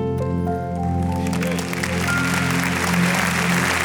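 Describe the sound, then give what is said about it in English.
An audience claps during a church worship service. The applause is sustained, dense and loud, holding steady for the whole stretch, with low sustained tones beneath it. “if you can give Jesus that clap, let Him hear it stronger from you.”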